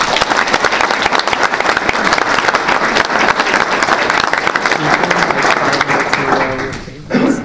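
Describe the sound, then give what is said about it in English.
Audience gives a round of applause at a community meeting honoring a local man. The clapping is loud and continuous, briefly thinning near the end before swelling again. “Thank you, and let's give him a round of applause.”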